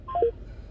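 Telephone keypad dialing tones: a few short, clean electronic beeps in quick succession, fairly soft, over a low steady hum, while someone calls back a dropped call.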